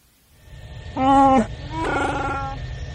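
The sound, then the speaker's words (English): Two drawn-out, harmonic Wookiee groans echo through the frigid hold of a ship, like a rough, growling moan. The first is louder and bends downward at its end; the second is longer and steadier. “A groggy Wookiee groan reverberated through the frigid hold of the exquisite death.”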